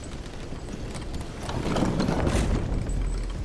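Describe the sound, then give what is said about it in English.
Video game elevator arriving and going up after a lever is pulled: a steady, broad mechanical rumble with a clattering texture. It swells louder midway and holds to the end, with no talk over it. “Elevator comes. Elevator goes up.”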